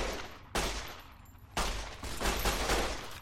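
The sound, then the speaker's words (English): Video game gunfire, with loud, sharp blasts followed by rumbling, sustained tails. A few shots overlap into a dense, noisy burst of fire. “I found a gun this time.”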